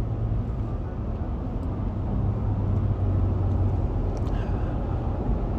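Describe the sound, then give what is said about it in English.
Car driving on the road at 6:30 in the early morning: an even, low engine and road rumble continues throughout with no distinct separate events. “It's 6:30 in the morning, so excuse my my focus on my driving as I record this podcast.”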